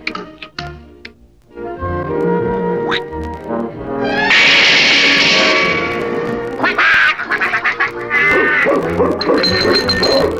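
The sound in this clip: Cartoon duck quacking, a loud run of harsh, nasal quacks in quick succession, with no talking.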